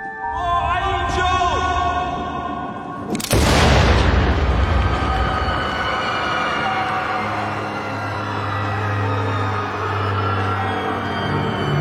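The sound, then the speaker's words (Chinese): A single loud gunshot as an assassin fires into a crowd, a sharp burst cutting in over steady background music that carries on afterward. “此时人群中突然窜出一个杀手，直接开枪正中女主的胸口。”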